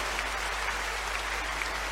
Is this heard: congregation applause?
yes